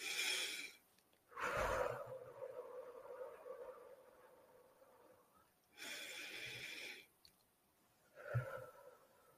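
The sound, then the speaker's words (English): A person takes slow deep breaths during a guided meditation: a few long, airy rushes of breath with quiet pauses between them. “But let's start with just taking a few deep breaths.”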